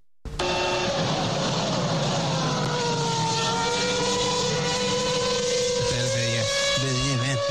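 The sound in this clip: Screaming wail of a McLaren Formula One V8 engine, a sustained loud, high-pitched harmonic whine with gliding pitch and quick up-and-down pitch shifts near the end.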